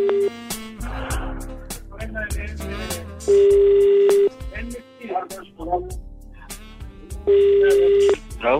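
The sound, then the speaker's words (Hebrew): Telephone being dialled for a live radio call: two long, steady ringing tones sound on the line, with people talking in between. “בוא נחייג אליו.”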